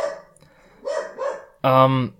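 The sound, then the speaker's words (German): Dog barking in short bursts behind a voice conversation, with a couple of brief mid-pitched yips followed by one louder, sustained harmonic bark-whine near the end. “Dein Hund ist aber heute mitteilungsbedürftig.”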